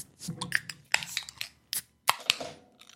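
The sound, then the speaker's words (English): A fingernail snapping and breaking, heard as a series of sharp, bright clicks and brittle snaps with short gaps between them, with no talk. “That was a fingernail. That's broken.”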